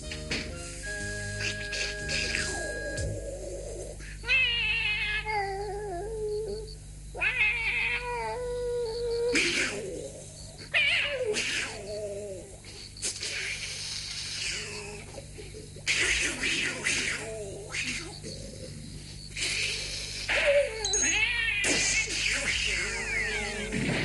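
A cat meowing and caterwauling late at night, with many drawn-out, wavering yowls repeating loudly across the stretch over a low steady hum.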